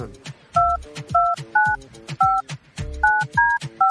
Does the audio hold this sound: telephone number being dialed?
yes

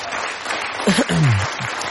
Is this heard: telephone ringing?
no

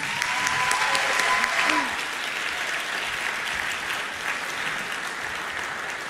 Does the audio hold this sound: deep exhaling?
no

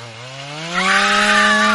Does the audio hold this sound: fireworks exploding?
no

